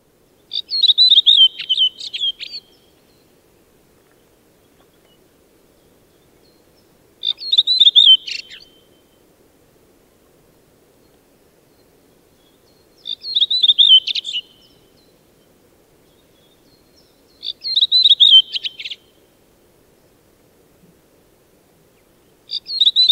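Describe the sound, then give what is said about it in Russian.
A redwing sings short, high, twittering phrases, each about a second long, repeated at regular intervals of roughly five seconds with silence between them. “Дрозд Белобровик.”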